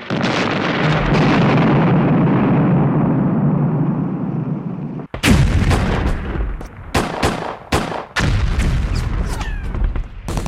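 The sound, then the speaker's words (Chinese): Rapid gunfire from a Gatling gun during the charge on San Juan Hill, with a dense rumbling roar first and then many sharp, loud bursts cracking in quick succession. “美国那时候还没有这种火药，但却有格林机关枪，可以向敌人连续射出多发子弹。”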